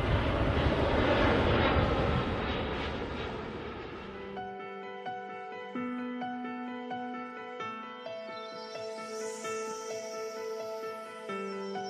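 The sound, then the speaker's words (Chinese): An airplane's jet engines roar loudly for a few seconds as it takes off. The broad roar then drops away and gives way to calm, tonal airline boarding music. “我们即将起飞，请大家记得打开耳朵，你将拥有美好的听觉飨宴。”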